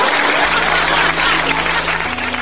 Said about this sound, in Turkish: Akide karanlıkta daha da güzel söyledi şarkısını. Salonda büyük bir alkış koptu.